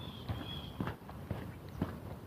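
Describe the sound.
Footsteps walk through a shady neighborhood, a steady series of soft, dull treads landing about every half second at an even pace, with no voices.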